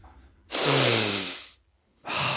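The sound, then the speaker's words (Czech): A deep, loud inhale through the nose, about a second long and rough with breath noise, then a short silence before another strong breath begins. “Nadechuju se. Čmuchám člověčinu.”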